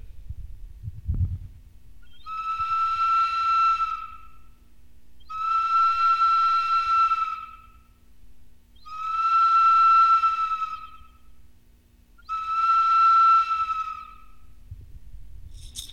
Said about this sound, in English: He put holes at both ends of the branch. When he tried this time, he was only able to duplicate one sound, and it sounded like this.